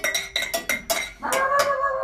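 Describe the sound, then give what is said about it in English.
A metal lock is lifted out of its loose fitting in old, weathered wood, making a quick series of sharp metallic clinks and rattles. A longer creaking, ringing scrape follows, with no voices. “The wood is so old and the stable so loose, it's quite possible to lift the lock right out, like this.”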